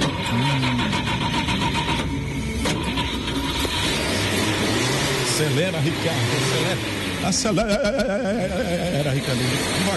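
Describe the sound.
A car engine turns over and revs, its pitch wavering up and down as it accelerates, all under a dense layer of talk and other sound at steady loudness.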